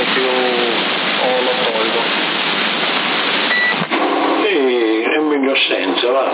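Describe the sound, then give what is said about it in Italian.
A CB radio transmission with an echo effect switched on: a voice over constant hissing static, heavily band-limited, with one brief dropout partway through. “si sente l'eco, dai. Per me è meglio senza, perché è un eco troppo forte.”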